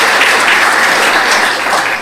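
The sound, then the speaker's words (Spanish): An audience applauds at a stage show, a dense, steady wash of many hands clapping that stays loud throughout and eases slightly at the very end. “En verdad, muchísimas gracias y un aplauso, por favor, para ellos.”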